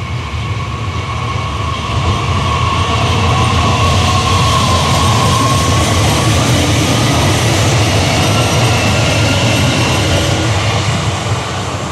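A train arriving at a station makes a loud, steady rolling rumble with a faint tone that drifts slightly lower partway through. It continues unbroken throughout, with no voices.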